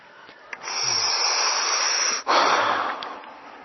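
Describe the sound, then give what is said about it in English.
Forceful breathing during a breathwork exercise: a long, loud, rushing breath, a brief break, then a second strong breath that gradually fades. “Watch when you space out, come back into the breath with a vengeance. Watch when you kind of go unconscious, come back and wake yourself up with the breath.”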